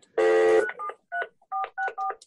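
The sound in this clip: A phone beeps as an incoming call is declined. One loud, buzzy tone is followed by a few short, clipped two-note electronic beeps in quick, uneven succession.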